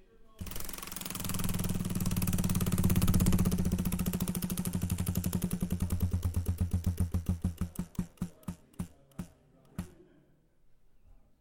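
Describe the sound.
A spinning prize wheel in a studio game clicks rapidly and loudly at first, then the clicks spread farther and farther apart as it slows to a stop.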